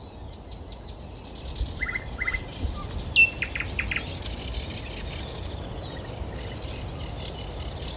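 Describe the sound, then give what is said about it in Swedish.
Sedge warblers sing faintly in the background along a river, with scattered high chirps and short trills. A steady, dense hiss of insect-like noise runs throughout. “Och så hörs det sävsångar i bakgrunden här någonstans också.”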